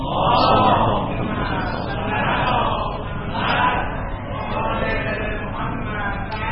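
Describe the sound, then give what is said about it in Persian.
An audience recites salawat together, many voices chanting in unison in loud, massed phrases that rise and fall a few times. “سلامتی و وجود مبارک حضرت بقیت الله اعظم صلوات و رحمت بفرمایید.”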